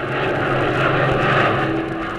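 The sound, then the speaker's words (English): A Black Widow fighter plane roars high in flight above the German lines, its engine producing a loud, steady droning rumble with a constant low hum and no break in level. “we find him at the controls of a sleek, powerful Black Widow fighter, roaring high above the German lines on course 098.”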